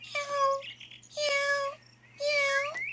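Three drawn-out cat meows, each a loud, tonal call lasting roughly half a second, separated by brief pauses, with a steady low hum running underneath throughout.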